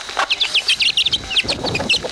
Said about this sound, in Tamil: அங்க கோழி குஞ்சுக நனைஞ்சுகிட்டு இருக்கு. அது எல்லாத்தையும் எடுத்து இந்த பரப்பங்குடையில போட்டு வைக்கிறேன்.